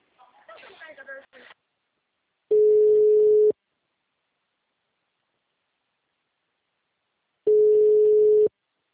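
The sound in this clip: Telephone ringback tone on an outgoing call: two steady, loud, mid-pitched tones, each about one second long and separated by a long silence. A brief voice is heard at the start.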